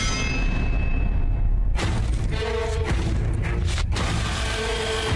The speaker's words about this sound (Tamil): Sir இந்தாங்க sir wheel spanner. கொஞ்சம் நகருங்க. இந்த லாக்க நான் உடைக்கிறேன்.